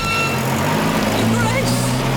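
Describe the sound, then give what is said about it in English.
A car's engine hums as the car drives through gates, a low and steady drone that stays at a constant level throughout, with a muffled background noise. “Hines opens the gates fully and the Duke drives through.”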